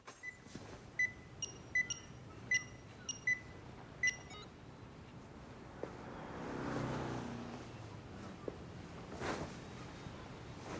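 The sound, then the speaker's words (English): A burglar alarm keypad beeps as the alarm is switched off after the front door of a house is unlocked. Several short, high electronic tones come in a quick, uneven run, followed by quieter background noise. “He unlocks the door and deactivates the burglar alarm.”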